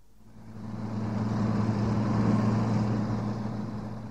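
A car engine drones steadily as the car is driven fast. The low hum swells slightly and then eases, with no voices over it.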